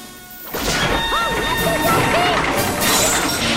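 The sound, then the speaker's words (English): Large boulders crash down one after another in a passageway, making a loud, continuous, rumbling roar of impacts, with voices crying out over the din. “One by one, the boulders come crashing down.”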